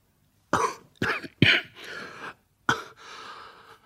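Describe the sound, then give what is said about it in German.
A person coughing uncontrollably after a stimulant is held under the nose, a few harsh, sharp coughs separated by short pauses, some trailing into rasping breaths, moderately loud and with no talk. “Es hilft nichts. Ich kann den Husten nicht unterdrücken.”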